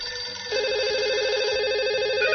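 A telephone rings for an incoming call with a steady, loud warbling electronic tone that alternates rapidly between two pitches. It starts about a fifth of the way in after a quieter tone and continues to the end.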